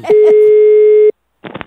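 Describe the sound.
A telephone ringing tone sounds as one steady, loud, mid-pitched tone lasting about a second. A pause follows, then a voice speaks briefly. Brief vocal sounds also come just before the tone.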